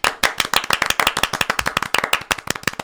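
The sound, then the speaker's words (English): Clapping hands as an audience welcomes a guest onto a show: many sharp, separate claps in a quick, uneven rhythm that keeps going throughout with no talk. “Please welcome everyone. Put your hands together for Dame Amy Shaw.”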